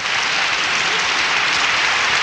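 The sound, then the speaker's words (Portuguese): Audience applause for a guest on a country music program: an even, dense wash of clapping holds steady and loud throughout, with no voices above it. “Olha aí que beleza, aplausos pra ela.”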